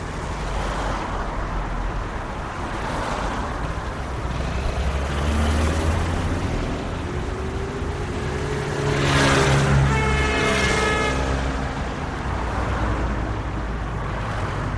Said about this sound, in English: I think I should record before we start, like a minute of traffic.